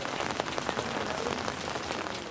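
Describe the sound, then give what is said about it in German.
Steady rain falls during an outdoor choir gathering, a dense, continuous hiss full of small pattering drops, fairly faint and even throughout, with no voices. “Auch als der Regen stärker wird.”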